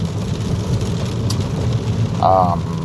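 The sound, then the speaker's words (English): Car driving through rush-hour traffic in the rain, a steady low rumble under a broad hiss of rain, with a brief higher tone near the end. “I'm driving. It's rush hour and it's raining.”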